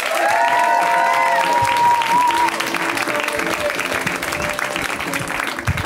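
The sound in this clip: Audience applause greeting a comedian taking the stage at a stand-up comedy show: steady, sustained clapping with some cheering, and a voice briefly heard over the first couple of seconds.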